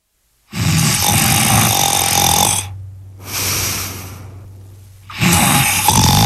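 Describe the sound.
A man snoring in an adjoining study: two long, loud rasping snores with a softer, breathy snore between them, over a low steady drone.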